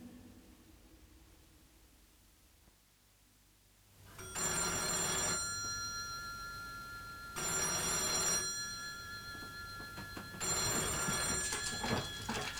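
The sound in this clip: A telephone bell ringing in three bright, metallic trilling bursts, each lasting one to two seconds, separated by short pauses and preceded by a few seconds of quiet hiss.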